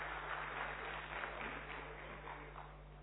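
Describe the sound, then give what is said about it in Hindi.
Steady applause from an audience clapping, faint and continuous throughout, with a low hum underneath. “Sudarshan भाई के लिए तालियां बजाएंगे।”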